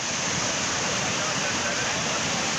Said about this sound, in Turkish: Keles ilçesinde sağanak sele dönüştü. Önüne ne geldiyse sürükledi, bazı evleri su bastı.